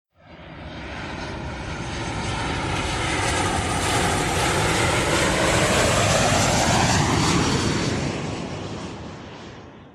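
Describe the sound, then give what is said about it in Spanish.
An airplane in flight produces a loud, broad engine drone that swells up from near silence and holds steady for several seconds. Whining tones sweep gradually through it before the sound eases off at the end. “el viaje sigue, nos vamos a subir otra vez en el avión y ahora nos vamos”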